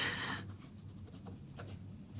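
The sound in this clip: Pen scratching across paper as a name is signed in a book, opening with a brisk, bright stroke and trailing into softer, fainter scratches with no talk.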